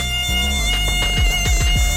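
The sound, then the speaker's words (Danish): Mosquitoes buzz as darkness falls early during a solar eclipse. A steady, high-pitched whine holds throughout, with several low, falling swoops repeating underneath. “fordi myggene, de vågner så op til død og begynder jagten før tid.”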